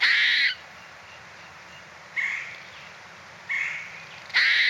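A bird's alarm call warning other animals of danger in the woods: four harsh, loud, noisy calls spaced in a steady rhythm, with quiet gaps between and no talk.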